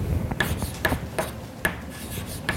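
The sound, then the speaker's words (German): Scratchy rubbing strokes of a sum and an integral being written by hand, several short rasping marks with clicky accents at uneven intervals over a low background murmur. “Ich schreibe also weiterhin hier die Summe über i. Und dann schreibe ich hier nur dieses Integral ein bisschen anders auf.”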